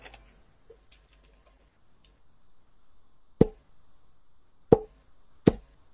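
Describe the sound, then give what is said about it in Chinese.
A bottle struck against a head three times: three sharp, hollow knocks spaced about a second apart, standing out from a faint, quiet background. “你就拿那瓶子打你脑瓜三下，来吧。”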